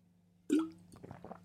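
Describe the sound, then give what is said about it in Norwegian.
A sip of water is drunk: one soft gulping plop, followed by a few faint small wet sounds in near silence. “Ta med en slurk vann, som om det hjelper.”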